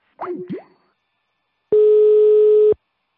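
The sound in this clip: Telephone line tone after the receiver is hung up: a brief, warbling sliding sound, then one steady, fairly low beep lasting about a second.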